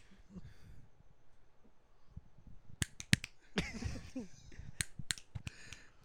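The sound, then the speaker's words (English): Fingers snapping as a group of people tries to snap together, many sharp, dry clicks landing unevenly rather than in unison, some much louder than others, after a quiet opening stretch. “Listen for the last snap.”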